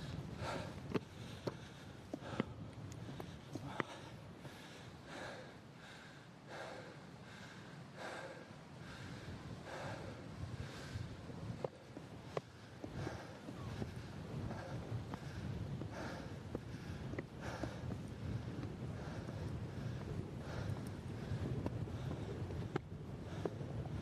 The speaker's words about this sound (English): I feel the wind picking up here as well.